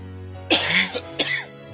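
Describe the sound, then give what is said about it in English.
A short burst of harsh, throaty coughs from a man whose voice is nearly gone, a few sharp explosive hacks close together, heard alone without talk. “Coughing my damn head off.”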